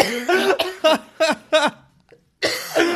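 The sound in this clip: Harsh coughing from someone who choked on coffee that went down the wrong way: a run of several sputtering, voiced coughs, a short pause, then another longer strained burst.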